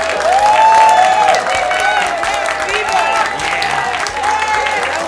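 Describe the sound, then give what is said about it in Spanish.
Studio audience applause and cheering greet a national band, sustained and loud throughout, with a dense, steady clatter of clapping and voices mixed in. “para quienes pido un gran aplauso, people.”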